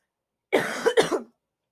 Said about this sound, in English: hang on, I have to cough,